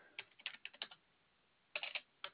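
Computer keyboard typing in quick bursts of crisp clicks: a rapid run of keystrokes, a short pause, then another brief cluster and a final tap, with no talk.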